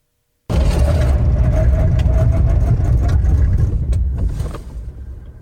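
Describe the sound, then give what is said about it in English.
Car front end braking hard in a 60-to-0 brake test, with the brake solenoids firing: a loud, dense, continuous rumble with a steady mid-pitched tone running through it, fading away near the end. No voices. “what you're hearing is actually the front end. So you can hear the solenoids firing off on because we do 60 to 0 brake testing as well.”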